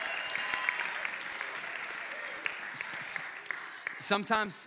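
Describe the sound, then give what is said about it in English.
Applause and cheering from an audience for a youth pastor, a steady dense clatter of clapping that carries through the whole clip, with a voice speaking briefly at the end. “Come on, get some noise for your youth pastor.”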